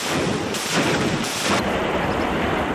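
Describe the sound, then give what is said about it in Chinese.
Howitzer and rocket artillery fire, heard as a dense, loud roar with a few heavy booming bursts rising out of continuous rumbling noise. No voices are heard. “同时，命令隐蔽待命的榴弹炮和火箭炮分队利用首轮打击成果进行转移射击。数轮火力打击后，目标被彻底摧毁。”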